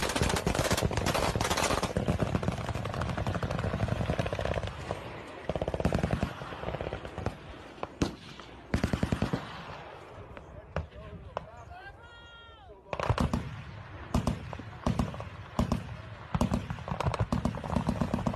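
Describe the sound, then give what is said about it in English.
Gunfire rings out in a video of people shooting at something in the sky, with many sharp, loud cracks in irregular bursts and voices talking throughout. “So they're shooting at something in the sky. Yo. These definitely sound like gunshots.”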